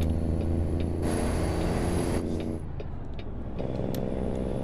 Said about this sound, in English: it is the Kenworth W900. We tricked it out pretty well. We have the Lope engine, the N14.